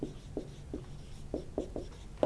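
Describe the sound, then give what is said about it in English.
Marker or chalk strokes on a board during a lecture on telescopes, a steady series of short, scratchy swipes at an even rhythm, quiet and with no speech over them. “Let me write it out for you. Not too many symbols. Wavelength.”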